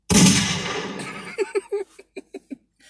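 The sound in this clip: A gunshot sound effect: one loud, broad blast that rings out and decays over about a second, followed by several short, clipped bursts in quick succession.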